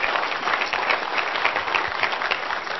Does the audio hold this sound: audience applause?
yes